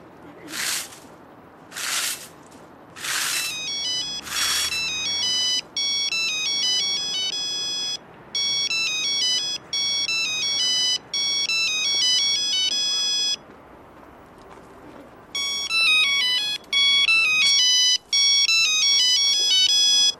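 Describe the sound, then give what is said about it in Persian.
A telephone ringtone plays after a number is dialed: a bright, repeating electronic melody in several phrases separated by short gaps, preceded by four brief noisy bursts. “زنگ میزنم 125 بابا.”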